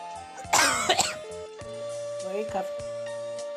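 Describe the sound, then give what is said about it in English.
A person coughing in a few harsh bursts, loudest early on with a weaker cough later, over steady sustained tones. “Why are you coughing?”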